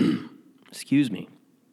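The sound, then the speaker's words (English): A person clears their throat at the start of a spoken recording: two short, rough, voiced bursts separated by a brief pause, then quiet. “why is it that I always need to clear my throat as soon as I begin the episode?”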